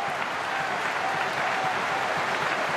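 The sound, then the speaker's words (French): Stadium crowd applauding at a Euro 2020 football match between Belgium and Denmark, a dense, steady roar of clapping hands that stays loud and continuous throughout without pause. “Ce que vous entendez, c'est la foule qui applaudit pendant une minute complète.”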